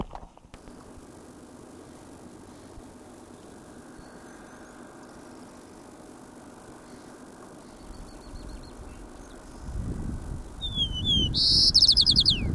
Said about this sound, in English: White-crowned sparrow, eh?